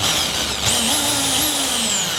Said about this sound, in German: Aber mit Bohrmaschine ist doch viel einfacher. Oh Gott, ich habe Angst. Halt du mal bitte die Kastanie fest.